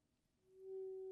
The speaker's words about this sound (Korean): 이제 이 속이 빈 파이프에서 소리가 울리게 해볼 거예요. 먼저 불을 붙여볼게요.